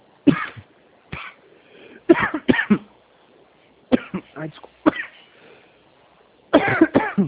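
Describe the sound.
Dry coughing from a person whose throat has dried out from talking a lot in dry weather: several sharp cough bursts in irregular clusters, with quiet gaps between, ending in a dense run of rapid coughs.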